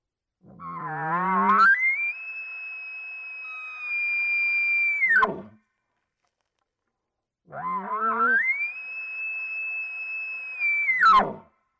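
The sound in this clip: Two elk bugles imitated with a diaphragm elk call, each starting with low rough grunting notes that climb into a long, loud, high whistle before breaking off in a sharp drop, with silence between them.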